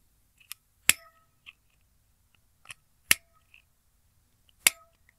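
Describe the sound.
Crisp clicks of a metal stylus punching braille dots into a slate while writing letters, with three loud, sharp snaps spaced apart and fainter taps and scrapes between them.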